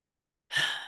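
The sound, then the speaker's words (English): A single deep breath taken together during a guided calming pause: a soft, airy inhale flows into a long sighing exhale that fades gradually, heard alone with no talk. “let's just take a moment to take a breath together”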